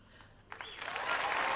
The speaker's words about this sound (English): Agree with that big clap there.